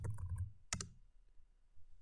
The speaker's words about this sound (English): Open PowerShell as an administrator again. I type git sil vm host.